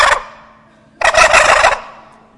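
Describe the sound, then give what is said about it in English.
A wild turkey gobbler gobbles in the woods, a loud, rattling burst that follows the brief tail of an earlier call. “the gobblers, are responding to you. So you get out early in the morning, you start calling, and if you're turkey hunting, the most exciting sound you can hear in the woods is this.”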